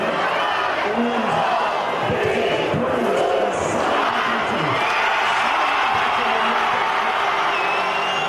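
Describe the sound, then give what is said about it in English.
Rugby fans in Johannesburg cheer and whoop after the Springboks beat England in the Rugby World Cup final. The crowd noise is steady and moderately loud, and a thin high tone appears near the end. “That's the sound of joyful fans in Johannesburg as South Africa, the Springboks, crushed England 32 points to 12 in the final to lift the trophy for the third time.”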